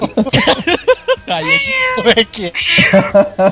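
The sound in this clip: A person's voice imitates a cat meowing, giving a few drawn-out, nasal, high-pitched meows with wavering pitch among quick vocal sounds.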